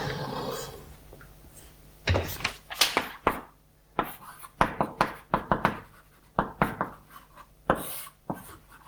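Someone writes a curved equals sign on a board during a math lecture: faint, irregular scratchy strokes and sharp taps, many in a row with short pauses between them, and no talking.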